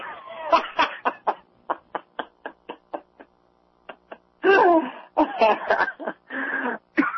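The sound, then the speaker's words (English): A coughing fit in the middle of a conversation: a long run of many short, sharp coughs, then a few longer, rougher bursts. “Oh, man, you made me cough.”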